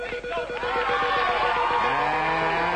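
A game show prize wheel spins with a rapid run of ticking clicks in the first part, heard under loud, sustained droning tones that carry on after the ticking fades.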